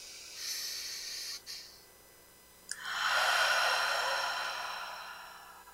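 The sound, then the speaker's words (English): Slow, deep breathing during a guided breathing exercise gives two long, airy rushes of breath. The second is louder and fuller and fades gradually. “Inhale. Allow yourself to let go. Exhale. One more time.”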